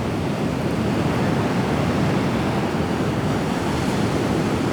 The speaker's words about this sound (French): Se croirait carrément sur une plage déserte.